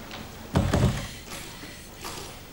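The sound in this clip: A door is shut and locked: a low, muffled thump of the door closing, followed by a couple of faint clicks, against a quiet background.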